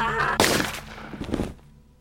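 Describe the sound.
A single sharp gunshot in a video game, a sudden loud blast followed by a short, rumbling decay, with a low hum underneath.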